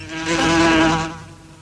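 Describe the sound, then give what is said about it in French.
A housefly buzzes in one continuous, droning whine that swells to full loudness and then tapers off, with no talk over it. “Oh putain, la mouche, ta gueule.”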